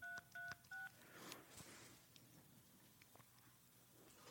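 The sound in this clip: Three short telephone keypad tones in quick, even succession, dialed on a phone set to speakerphone. A few faint clicks and quiet background noise follow.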